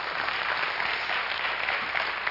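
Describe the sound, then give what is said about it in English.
Audience applause in a church service after news of mission giving, a loud, dense patter of many hands clapping at once, holding steady for the whole stretch with no talk over it. “That was a good place for an applause.”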